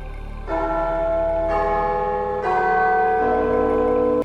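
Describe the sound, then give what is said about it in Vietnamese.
A large bell tolls in about four slow, steady strokes. Each deep, resonant tone lingers and echoes, overlapping the next in a sustained, shimmering hum with no voices. “Tiếng chuông vang lên, ngân nga vang vọng khắp nơi.”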